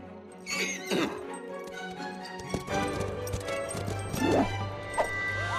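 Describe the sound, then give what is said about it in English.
A young horse whinnies, giving a couple of shrill, wavering neighs with quivering pitch, separated by quieter stretches of scuffling and background sounds. “With a determined whinny, Beauty leaps up into the air and kicks out her back hooves.”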